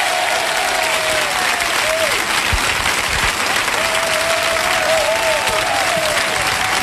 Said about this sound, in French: On peut les applaudir parce qu'ils assurent grave quand même, ces musiques.